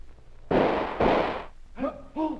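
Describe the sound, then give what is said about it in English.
Two loud pistol shots in a duel, about half a second apart, each a sharp broad crack that fades quickly. Brief vocal sounds follow. “You will make the usual 10 paces and fire on my signal. Tire!”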